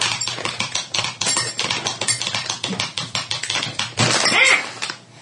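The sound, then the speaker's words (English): Crinkling and rustling as a bag of dried plums for cake making is pulled open: a dense, crackly run of plastic noise with rapid ticks, swelling loudest near the end before it quiets. “I'm trying to get this fruit bag open.”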